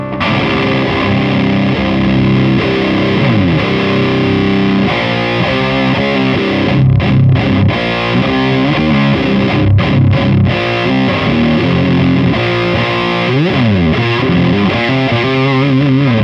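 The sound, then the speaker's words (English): A Jugendstil fuzz pedal, un-EQ'd with its loudness control all the way down, drives a loud, heavily distorted guitar through sustained notes, chords and sliding riffs, played alone without talk. “So anyway, with the loudness control all the way down, we get the un-EQ'd version of the fuzz, which...”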